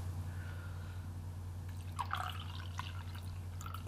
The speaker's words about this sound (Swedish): Ska vi fylla på en liten kaffesipp? Ja, med? men varför inte? Nej, men varför inte? Vi fyller på en liten kaffesipp.